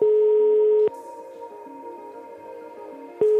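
Telephone line tones as a call is placed to a flower shop. A steady, clear tone is cut off by a click, followed by quieter, layered humming tones, then another click as the steady tone returns.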